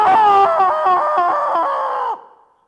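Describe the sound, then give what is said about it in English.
A person lets out one long, loud, sustained yell, imitating a roaring football stadium crowd during a tense third-down play. The voice holds a steady pitch for about two seconds, then cuts off abruptly. “We screamed and we hollered.”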